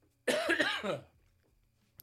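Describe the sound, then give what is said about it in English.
A single cough, short and harsh, is followed by quiet. “just a cough there to remind us all that we're still in a global pandemic.”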